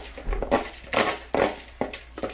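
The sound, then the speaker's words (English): Lentils are tipped into a cooking pot, layered on top of garlic: a few soft rattling patters and light clinks, faint and without talk. “Now I'm putting my lentils in on top here.”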